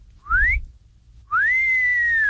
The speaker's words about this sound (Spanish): el chiflidito para sus ladies, para sus damas. Para esas muchachillas de 85